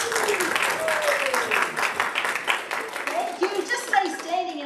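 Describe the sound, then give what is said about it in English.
Audience applause at an Easter Sunday church service: dense, steady clapping that continues through the whole stretch, with voices talking underneath. “And let's welcome Anita as she comes and shares the word this morning. Give her a big hand.”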